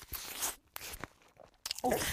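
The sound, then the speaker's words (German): Bites into a meat sausage, a few soft crunching and squishing bursts separated by short pauses, with quiet mouth noises between them and no clear talk. “Fleischwurst drin reinbeißen und Glücksgefühl pur.”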